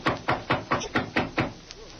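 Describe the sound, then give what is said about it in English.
Knocking on a door: seven sharp, evenly spaced knocks in a steady rhythm, each a short percussive rap with a quick decay, followed by quiet. “I'll knock to let him know we're here.”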